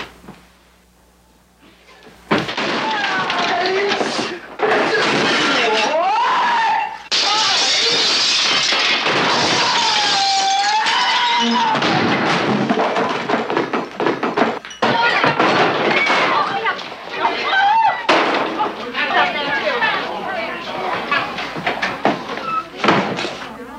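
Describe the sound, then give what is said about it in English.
Crashing and slamming as an office is smashed up in the 1969 film Marlowe: loud thuds and bangs over a dense, continuous backdrop. “Winslow quickly destroys Marlowe's office and then casually walks out.”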